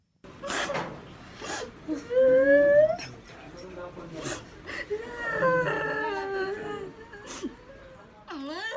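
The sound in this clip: A grieving family wails and sobs for a security officer killed in a Maoist landmine attack near Gadchiroli. High, wavering cries rise and fall in long drawn-out moans, broken by gasps and overlapping voices.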